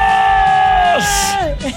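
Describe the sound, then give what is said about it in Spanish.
An audience cheers with a sustained shouted whoop that drops sharply in pitch about midway and again near the end, with some crowd noise around it. “¡Aplausos!”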